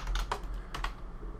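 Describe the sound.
Quiet keystrokes on a computer keyboard as a search is typed, a short uneven burst of quick clicks with no talk.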